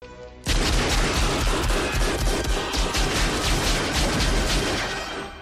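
Gunfire from a scene in The Matrix film: a dense, loud barrage of rapid shots and impacts bursts in abruptly after a quieter half-second and keeps going without pause to the end.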